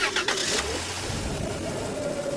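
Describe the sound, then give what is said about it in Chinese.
A car drives off after its door is shut: a burst of clatter at the start gives way to a steady engine hum that holds at an even level to the end. “随后关上车门，汽车便立刻又开动”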